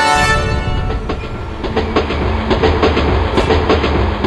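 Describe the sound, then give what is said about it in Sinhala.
A train engine runs aboard an upcountry passenger train, producing a loud, continuous low rumble layered with rhythmic rail clatter throughout. “Engine ඩ්‍රයිවරුත් යාන්තම් 5:45 වෙනකොට 5යි කාලේ කෝච්චියේ එන්ජිම start කළා.”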